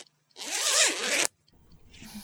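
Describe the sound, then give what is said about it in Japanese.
A trouser zipper is pulled open in one long, loud, rasping stroke lasting about a second, followed by quieter, softer rustling. “ほら、ここのチャックを。”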